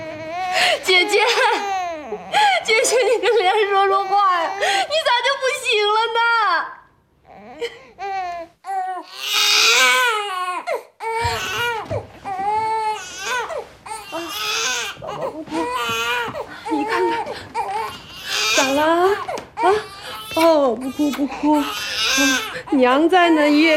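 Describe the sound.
A baby cries loudly in long wailing bursts broken by gasping sobs and whimpers, with a short quiet break partway through before the crying resumes.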